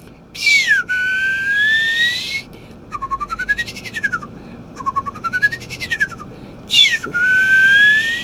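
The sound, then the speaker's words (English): A person whistles with the mouth, imitating a tamarin monkey's food call. A loud, high swooping whistle is followed by two rapid trilled arcs that rise and fall, and then the swooping whistle returns. “so that's the monkey. I should tell everyone he's doing that with his mouth. There's no like whistle or flute or anything here.”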